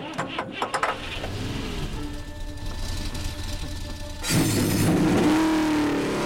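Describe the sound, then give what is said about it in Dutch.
Race car engines start and rev at the beginning of a race, a dense, rumbling roar that stays steady, then surges noticeably louder and fuller in its last third. “Heren, start uw motoren.”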